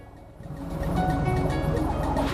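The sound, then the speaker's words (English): Underwater churning of a boat's spinning propellers as a round pod submersible is lowered into the water: a steady low, gurgling whir that swells during the first second, then holds loud and even. “The round pod submersible is lowered into the water. Underwater, the spinning propellers of the boat.”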